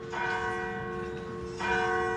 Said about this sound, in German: Dann werden überall im Land die Kirchenglocken geläutet.